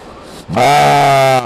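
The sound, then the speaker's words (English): A ewe sheep lets out one loud, sustained bleat with a bright, buzzy, wavering tone, preceded by a short, fainter murmur. “The sheep had no comment when I asked for her thoughts on Speaker Madigan.”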